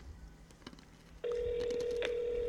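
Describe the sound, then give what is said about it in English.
A phone call being placed: after a quiet stretch of low background noise, a steady electronic ringing tone starts about halfway through and holds evenly to the end. “I want to call. We'll start with Dion, bitch ass. Dion. Try one more time.”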